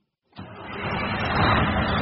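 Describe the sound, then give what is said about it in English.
A white Volvo truck stands just outside the shop room at Williamsport High School with 17-year-olds in its cab. After a brief silence, its engine noise cuts in abruptly and then holds a steady, broad rumbling hum that grows slightly fuller. “Just outside the shop room at Williamsport High School, some 17-year-olds have piled into the cab of a white Volvo truck.”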